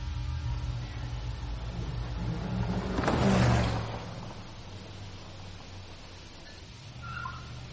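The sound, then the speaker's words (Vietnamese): A car pulls up and stops beside a path leading into dense woods in the rain, its low engine rumble swelling briefly near the middle before settling into a steady, quieter hum. “Chiếc xe dừng lại ngay sát một lối đi dẫn vào phía bên trong khu rừng cây rậm rạp.”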